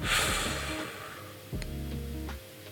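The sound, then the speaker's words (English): A deep breath in and out: a brief airy rush of breath at the start that fades, followed by a steady low sustained tone. “So we'll take a quick deep breath in and out.”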